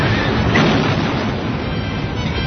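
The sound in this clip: Cannon fire in a dramatized Battle of Waterloo, as British lines fire at will on advancing French cuirassiers: a loud, continuous, dense rumbling roar with no separate shots standing out.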